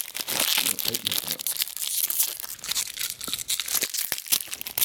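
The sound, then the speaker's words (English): Paper crinkling and tearing as a roll of Kodak 100 ASA extra-saturated slide film, about 12 years out of date and wrapped in backing paper, is handled. The crackle is dense, continuous and fairly loud throughout. “inside you've got the roll with the paper. It's basically paper wrapped around film.”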